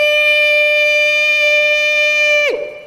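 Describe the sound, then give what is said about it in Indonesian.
Imsak siren marking the pre-dawn fasting cutoff, a loud, steady, harmonically rich tone that holds at one pitch, then drops sharply and fades at the very end. “Babunyi sirine imsak.”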